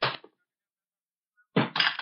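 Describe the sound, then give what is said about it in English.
Guns dropped onto a floor: two separate bursts of clattering, thudding impact, the second landing in two quick hits, with silence between them. “Now drop your guns on the floor. Both of you.”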